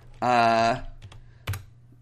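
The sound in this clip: A few sharp keystrokes tap on a computer keyboard, sparse and separated by quiet, after a brief loud tonal burst at the start.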